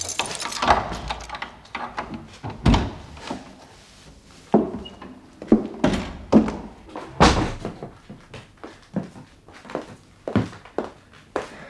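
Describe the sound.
A door being unlocked and opened: many wooden thunks, knocks and clatters of uneven loudness and irregular spacing, with quieter rustling between them.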